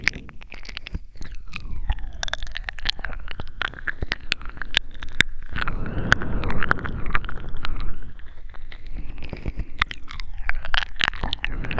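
Crunchy chewing of food while eating, with many sharp bites and crackling crunches in an irregular, continuous rhythm, fairly loud and close throughout, with no talking.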